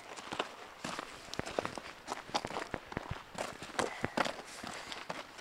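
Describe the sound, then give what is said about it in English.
Footsteps climb a long flight of stairs on an outdoor trail among moss and trees, a steady run of many crisp steps with a few louder footfalls, heard alone. “There's more stairs coming up. They're going to do lots of hard work. still walking upstairs. these stairs continue for a long time.”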